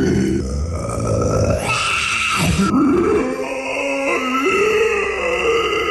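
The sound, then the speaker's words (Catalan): A guttural vocal growl, demonstrating a scream produced without hurting the throat: a rough, gravelly voiced rasp sustained for several seconds, its pitch wavering and dipping low partway through. “Farem sons guturals amb la veu sense fer-nos mal. Vaig a fer-vos un exemple.”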